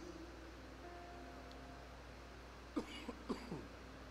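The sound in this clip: A few short, dry coughs from someone whose throat has caught, coming in quick succession near the end after a quiet stretch with only a faint steady hum.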